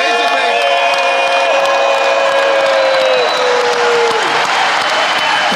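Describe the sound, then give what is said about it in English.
An audience applauding and cheering at a live event as a guest is welcomed: dense, loud, steady clapping with whoops and shouts, continuing without pause throughout. “Make some noise for Mike Tyson!”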